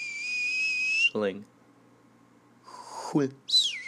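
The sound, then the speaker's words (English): Whistling sounds out in high, clear tones: a long steady note, then quick downward slides, and a final high note that falls away. “whistling”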